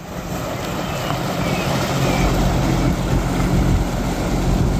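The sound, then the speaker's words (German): Tugboats tow a floating stage for an opening ceremony across a lake, giving a low, steady engine rumble under continuous wind and water noise that builds slightly toward the end. “Da fährt sie, die schwimmende Bühne für die Eröffnungsfeier, mit Schleppern einmal über den Maschsee gezogen bis ans Nordufer.”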